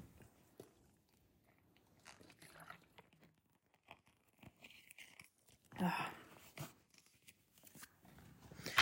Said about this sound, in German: Ich glaube, ich möchte mal kurz etwas trinken.